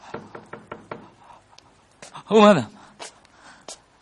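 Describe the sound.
Knocking on a door: a quick series of about five sharp raps, then a voice calling out, followed by a few more scattered knocks.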